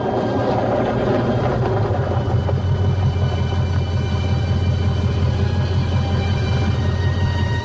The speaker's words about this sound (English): He pulls off into a gravel parking lot.